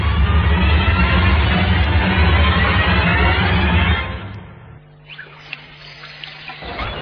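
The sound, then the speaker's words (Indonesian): Running water pours at a sink while hands are washed, a steady loud rush for about four seconds that then drops to a faint trickle with a few small splashes. “Sambil menunggu Maria keluar, aku mencuci tanganku dulu di wastafel.”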